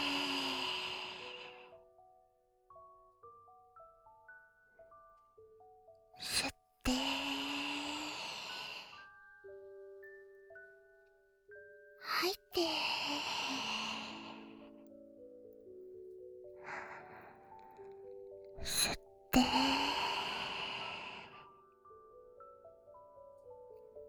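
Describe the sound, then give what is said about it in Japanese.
Slow breathing in and out, each breath a soft, airy rush lasting a second or two, separated by several seconds of quiet sustained synth tones. “吸って、吐いて。”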